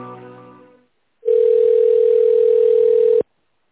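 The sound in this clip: Telephone ringing tone while a call to a sales department is being connected: one long, steady, single-pitch tone held for about two seconds. A brief voice comes just before it.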